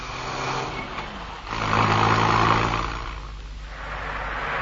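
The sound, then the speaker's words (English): Taxi cab driving off down a lane at night: a low, steady engine rumble swells louder midway as the car pulls away, then eases back to a muffled hum. No voices. “Now, listen. There's the cab driving off.”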